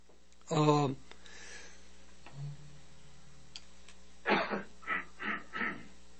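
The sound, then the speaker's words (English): Several short coughs burst out in quick succession near the end, following an earlier brief vocal sound, over a low steady hum. “boy, I wish I had a cough button here.”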